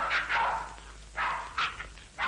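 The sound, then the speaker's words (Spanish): Dogs barking and yipping in a waiting room where several women sit with their dogs, a few short, sharp bursts spread across the moment with quiet gaps between them. “varias mujeres esperan con sus perros.”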